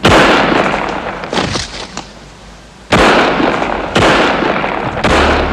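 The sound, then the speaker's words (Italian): Gunshots from a .357 Magnum revolver, several loud, sharp blasts spaced unevenly, each with a rough decaying tail. “Tre colpi di Magnum 357 spengono la vita di Giorgio Ambrosoli”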